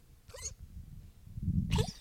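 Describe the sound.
A small dog weighing about eight pounds coughs in two short, raspy bursts about a second apart. A low rumbling noise sits between them. The whole sound is fairly quiet.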